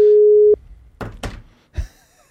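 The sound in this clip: Outgoing voice call ringback tone on a phone, placed from a business account: a single steady mid-pitched tone lasting about half a second, followed by a few soft, dull knocks.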